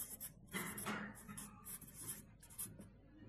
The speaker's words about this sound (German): Ich schreibe einfach ein paar Stichworte mit, dass man das auch ein bisschen festhalten kann